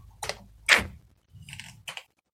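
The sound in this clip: Keyboard typing as a note is jotted down: a few short, crisp keystroke clicks in an uneven rhythm, moderately loud with gaps between them and no talk.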